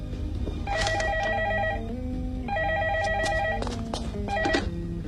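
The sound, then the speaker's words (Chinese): A telephone rings in electronic, warbling bursts: two long rings separated by a pause, then a third that is cut short, each a bright, pulsing tone. “说曹操，曹操来电话了。”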